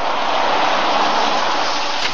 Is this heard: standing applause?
no